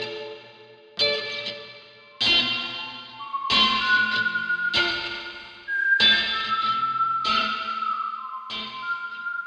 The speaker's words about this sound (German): So eine Nylon-Saiten-Akustikgitarre, die ich mit dem iPhone aufgenommen habe und einfach durch jegliches Effekt gejagt habe, dass es dann so klingt.